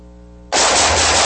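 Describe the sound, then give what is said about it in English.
Gunfire: a steady low hum is cut off by a sudden, loud, harsh burst of shooting that stays dense and sustained to the end. “Nice shooting.”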